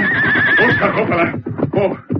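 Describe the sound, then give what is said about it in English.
A horse whinnies loudly as a stagecoach is brought to a stop, a long shrill neigh followed by a few shorter, breathy snorting bursts. “Slowly but surely, the stage was brought to a stop. Then the Lone Ranger called out to Tonto, who sat holding the reins of the lead horses.”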